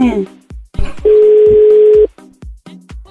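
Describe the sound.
A telephone ringback tone sounds on an unanswered call: one steady, level ring lasting about a second, framed by talking before and after.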